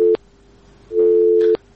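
Telephone busy tone after a call is cut off: steady low-pitched beeps, a short tail at the start and then one longer, loud burst, separated by silence and with no voices.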